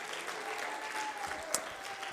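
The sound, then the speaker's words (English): A church audience claps along during a worship service. The clapping is soft and continuous, with one sharper clap standing out near the end. “Somebody ought to clap your hands unto the Lord.”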